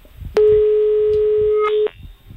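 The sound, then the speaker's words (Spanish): Telephone line tone of an outgoing call: one steady, mid-pitched buzz lasting about a second and a half, with a fainter higher tone inside it. It stands loud above a soft, low, pulsing background. “Vamos a ver si da tono la llamada.”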